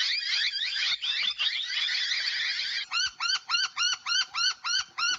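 A noisy miner bird calls: a harsh, dense chattering burst, then a rapid, even series of repeated rising piping notes, fairly loud and alone.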